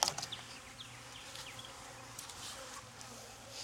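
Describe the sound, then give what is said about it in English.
Faint, steady buzzing of honeybees in an opened beehive in an apiary, a soft insect hum with a few sharper buzzes passing close near the start. “Yeah, they're a little bit buzzy already. This hive is getting strong.”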